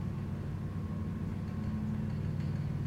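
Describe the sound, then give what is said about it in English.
An elevator motor whirs in an old brass-cage lift. The mechanical hum is low and steady and holds the same pitch without a break. “There is a clank and a whirr of a motor. I close my eyes. The elevator moves.”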